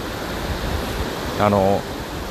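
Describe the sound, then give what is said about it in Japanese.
Steady, loud rushing of a muddy river in flood, heard during a riverside walk. A broad, unbroken wash of water noise continues throughout, with a short voiced sound partway through. “でちょっと濁流なんですよ川が。だからもしかすると若干川の音でうるさくて収録できてない可能性もあるんですが”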